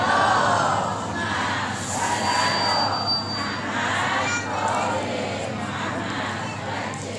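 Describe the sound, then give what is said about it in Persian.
An audience of women and guests at a religious gathering chants the salawat blessing together, many voices joining in a loud collective chant that swells and subsides in a few waves. “سلامتی خودتون خواهران گرامی و حضار محترم حضور در این جلسه صلواتی عنایت بفرمایید.”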